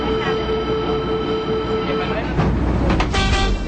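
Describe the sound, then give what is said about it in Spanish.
Train sound effect used as a radio programme's signal: a steady rumbling rail noise with a sustained tone held over it. It turns rougher and louder with clattering bursts near the end. “El tren de la tarde. En cuanto suene la señal, no te despegues de la Radio del Sur.”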